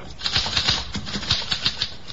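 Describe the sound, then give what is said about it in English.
Typewriter keys clatter in a quick, uneven run of many sharp clicks and taps that vary slightly in loudness, with no talk. “Here's a typewriter. Your secretary uses one. Perhaps your son or daughter write their school essays on a machine like this.”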